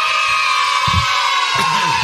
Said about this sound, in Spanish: Aparte los imagino todos juntos gritando. Todos juntos gritando. Como, ahí está, mirá. Está buenísimo. Te pone contento. Ya escuchá a los chicos, te pone contento.